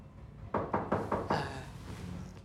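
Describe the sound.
Five quick knocks on a door in an even, rapid rhythm, each a sharp thud with a short decay, followed by a quieter background with no voices.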